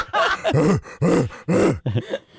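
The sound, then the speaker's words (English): Gorilla vocalizing in a series of deep, throaty groans, several rough bursts in an uneven rhythm with short gaps between them, loud and alone without other voices. “That, if you slow down, is a gorilla.”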